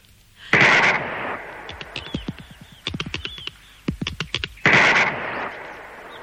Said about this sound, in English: Put your fingers in your ears. Yes. I'm going to shoot the top off it.